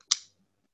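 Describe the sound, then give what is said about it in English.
A folding knife, opened by pushing on one side, flips open with a single sharp metallic click that rings briefly and then falls silent. “It's not a switchblade. It just... You push on one side and it flips open. And so it's like fun to just open.”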